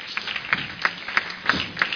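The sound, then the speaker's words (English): Church audience clapping for the women in unison, giving a steady beat of evenly spaced, fairly loud claps. “Give all the women a clap offering.”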